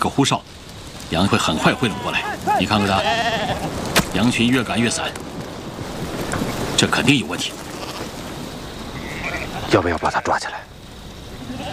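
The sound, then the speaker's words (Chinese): A flock of sheep, startled by aircraft, bleats repeatedly with wavering, overlapping cries that rise and fall in pitch, over a steady low rumble. “师长，你看看那些羊，一定是受到了飞机的惊吓。”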